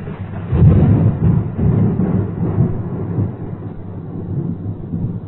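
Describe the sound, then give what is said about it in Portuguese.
Thunder rumbles from a violent storm breaking over expedition travellers on the banks of a wide river: a loud, low, muffled roar that swells early, then slowly fades and settles. “Mas violenta tempestade abateu-se sobre os expedicionários.”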